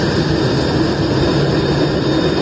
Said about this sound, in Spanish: Los 14 españoles llegan a la base militar de Torrejón en aviones A310 del Ejército del Aire.